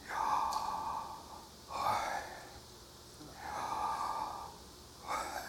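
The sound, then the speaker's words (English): Slow, soft breathing: a person inhales and exhales audibly in about four unhurried, breathy cycles, alone with no talk. “Taking a breath, notice the sound of inhale and exhale.”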